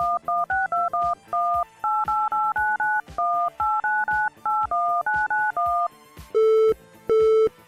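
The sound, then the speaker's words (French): Telephone dialing tones for a call: a quick series of short two-tone beeps, followed by two longer, steady, lower tones. “Oh, tentons de joindre Simon sur sa ligne de secours.”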